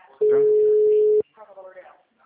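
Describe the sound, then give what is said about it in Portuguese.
A ringing tone from an outgoing phone call: one steady, mid-pitched electronic tone lasts about a second. Soft, indistinct speech follows it. “Enquanto isso, tô até ligando pra ela pra ver se ela atende.”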